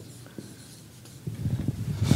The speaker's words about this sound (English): Sorry, I'm not used to writing on a board like this. It's going to get bad.